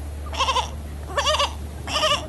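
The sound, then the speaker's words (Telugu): A male goat tied to a tree, meant for sacrifice, bleats three times in short wavering cries, each about a third of a second long and separated by pauses, moderately loud over a low steady hum. “దూరంగా ఒక చెట్టుకు కట్టేసిన బలి ఇవ్వబోయే మేకపోతు”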